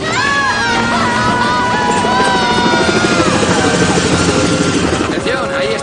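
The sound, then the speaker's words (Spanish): A helicopter's steady rotor thrum and engine whine as it hovers over a sailboat at sea during a rescue to evacuate the crew from the deck. The sound is loud and continuous, with a sustained tonal hum throughout. “El helicóptero se sitúa sobre el velero.”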